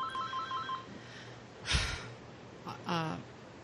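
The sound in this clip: A phone ringtone: a faint, repeating electronic tone pattern at the start, followed by soft breathy noises and a brief second trill.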